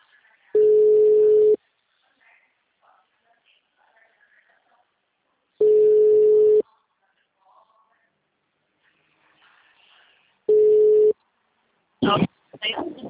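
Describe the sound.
Ringback tone of an outgoing telephone call: three steady, one-second tones of fixed pitch, spaced about five seconds apart, with near silence between them, followed by a voice starting to speak.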